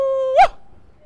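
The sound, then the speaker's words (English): A person howls like a wolf while biking fast in New York, a single short voiced cry that holds a steady tone, then swoops up in pitch and quickly falls away into quiet. “Other times when I'm biking fast and feeling energized, I just kind of howl like a wolf.”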